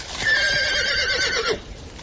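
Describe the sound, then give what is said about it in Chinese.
A horse gives a loud, wavering whinny lasting over a second as a horse-drawn carriage is halted, the call fading into quiet at the end. “马蹄声停了下来”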